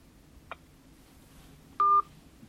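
A single touch-tone keypress sounds as a phone number is dialed to reach a law office: one short, steady electronic beep follows a faint click, against quiet background hiss.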